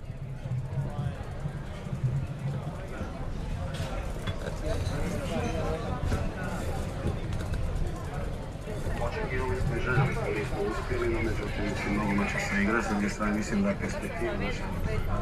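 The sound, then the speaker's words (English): Dense crowd hubbub fills a city square after the Croatian football team's defeat, recorded while riding a bike; many overlapping voices form a steady, loud babble with no pauses, and louder calls rise out of it now and then. “This is how the square sounds after the defeat of the Croatian football team. Recorded while riding a bike.”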